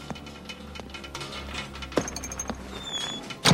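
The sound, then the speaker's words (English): A door is kicked shut by one of two men carrying a cage at night. A few dull thuds sound over a steady background, with the last and loudest impact landing sharply at the end. “One of them kicks the door closed.”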